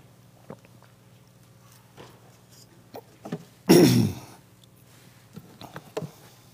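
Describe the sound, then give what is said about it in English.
A man pauses for a drink during a Sunday morning worship sermon. Faint small clicks and rustles lead to one loud, short, throaty burst, followed by more quiet handling noises. “Excuse me while I get a drink.”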